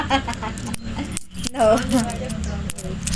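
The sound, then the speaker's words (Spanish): Metallic jingling and clinking of peso coins being counted, with repeated bright clinks and rattles under steady conversation. “¿Cuánto hay en moneda? A ver, volvemos a contar que me equivoqué.”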